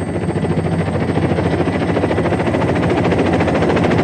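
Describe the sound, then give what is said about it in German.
A helicopter flies over rocks and ice in snowy mountains. The rotor thumps loudly and steadily over a continuous engine roar throughout, with no voices. “Sagt sie, während der Helikopter über die Felsen fliegt.”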